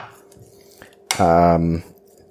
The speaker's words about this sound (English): I'm going to take a spatula. I'm going to dampen it with a little bit of water. And then I'm going to use it to spread the gnocchi out in the pan